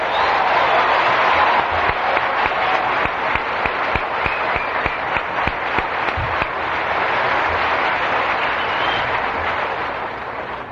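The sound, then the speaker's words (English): Audience applause for the international WOW ambassadors: many hands clap in a sustained, even wash that swells slightly late on before easing off. “It is my distinct honor and privilege to welcome all the international WOW ambassadors from around the world. Let's give them a hand for a tremendous year.”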